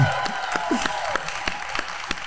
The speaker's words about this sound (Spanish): Damos un aplauso con mucho cariño a Maurice.